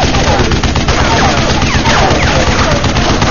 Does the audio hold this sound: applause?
no